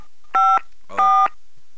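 Two short touch-tone beeps as a telephone number is dialed, each a clean dual-pitched tone separated by a brief silence, heard alone.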